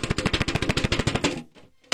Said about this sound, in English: so the can, I'm using the Danish butter cookies can. It's small, it's flat. It sounds like this when I shake it with the item inside.